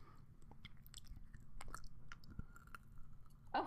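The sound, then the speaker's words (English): Soft, close chewing of candy, with many small wet clicks and crunches in an uneven rhythm over a low murmur, ending with one louder crunchy burst. “I'm going to do some ASMR with this candy I'm eating.”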